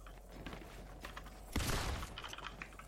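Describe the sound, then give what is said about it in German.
Rapid gunfire rings out in a shooter video game as a short, dense burst of shots midway through. Before and after it, the game's background sound stays faint and low. “Ach nee, aber wie hast du so schnell geschossen?”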